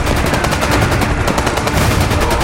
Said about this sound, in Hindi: Fire शुरू हो गया, फायर शुरू हो गया।